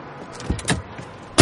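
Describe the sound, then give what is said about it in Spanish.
A chauffeur closing a car door for a passenger: a few soft clicks and rustles, then one loud, solid thump at the end, with no talk. “Monta en el vehículo. Un chofer le cierra la puerta.”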